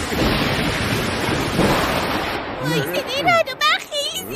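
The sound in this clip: Wind rising before an approaching storm: a loud, broad, gusty rush fills the first half and keeps blowing under talking voices afterward.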